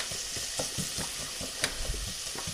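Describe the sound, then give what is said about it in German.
Onions sizzling as they fry in a pan for a quick sauce: a steady, dense hiss with many small crackles and soft stirring scrapes, and no talk. “Zwiebeln anmachen.”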